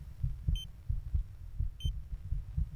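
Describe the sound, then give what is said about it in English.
A human heartbeat picked up by an internal microphone: a steady series of soft, muffled low thumps in an even rhythm, with two short, bright electronic beeps sounding above them. “That's actually my own heartbeat. I agreed to have my heart microphone. They put a microphone on the inside of me, and that's my own heart trying to beat through”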